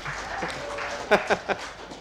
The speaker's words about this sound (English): we'll give you a round of applause.